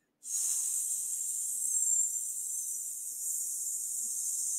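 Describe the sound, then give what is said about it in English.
A voice makes a long, steady 'sss' hiss during pranayama breathing practice, starting abruptly and holding at an even, fairly quiet level throughout. “And as there's fire burning atop of your head, that's the sound of sss, right?”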